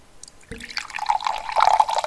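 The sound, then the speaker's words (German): Liquid poured into a glass, a gurgling, splashing stream that starts abruptly after a faint opening and keeps bubbling and fluttering to the end. “Erstmal mir was eingeschenkt.”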